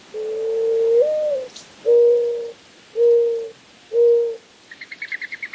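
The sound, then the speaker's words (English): Mourning dove cooing: a long, low first coo with an upward lilt, then three shorter, even coos at the same soft pitch, followed by a quick run of faint ticking pulses. “When I grew up in Arizona, I would hear the mourning dove in the morning on the way to school, cooing late in the afternoon.”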